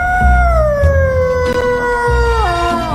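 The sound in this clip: A cat howls in one long, sustained, loud tone that slowly sinks in pitch and then drops sharply just before the end, with no talk.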